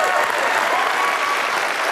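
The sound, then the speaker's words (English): Applause from an audience at a fundraising appeal, a steady dense wash of clapping that holds loud and even throughout the short clip, with some crowd voices mixed in. “And as the applause fades down, I tell you, though, get the hands ready to clap again.”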